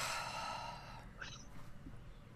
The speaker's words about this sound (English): maybe we can just take a nice deep breath together. In through the nose.